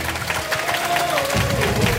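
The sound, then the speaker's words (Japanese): Applause from an audience welcoming the start of a contest: dense, steady clapping fills the whole two seconds at an even, fairly loud level. “皆さん惜しみない拍手でお迎えください。”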